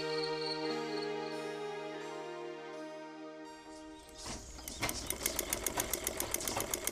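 A sewing machine stitches a new tailoring order at home, a fast, steady run of many even mechanical ticks that starts after a stretch of soft, sustained music.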